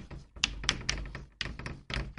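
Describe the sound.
Writing on a board: a few quick, irregular tapping strokes with short scratchy bursts, separated by brief pauses.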